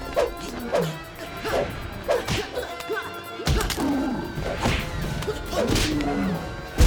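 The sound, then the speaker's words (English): Blows and swishing swings from a martial-arts fight scene, including a punch to the stomach. Several sharp thwacks and whooshes hit at irregular intervals over a busy background. “punches him in the stomach and he slides backwards”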